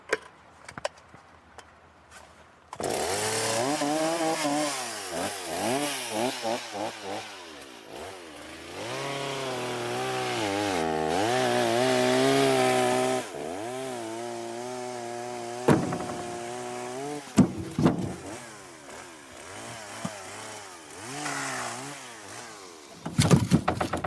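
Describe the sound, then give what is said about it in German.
A cold chainsaw is started and warmed up. Its loud two-stroke engine revs rise and fall repeatedly, with a few brief breaks in the running sound toward the end. “Das wird hier relativ laut. Die Säge ist jetzt noch kalt, die muss jetzt erstmal warm laufen. Darum geht die am Anfang erst ein paar Mal aus.”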